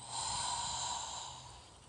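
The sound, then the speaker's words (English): Breathing during a guided exercise, one long airy breath that swells quickly, holds steady and then slowly fades, with a soft breathy hiss and no talking. “So breathing in and breathing out.”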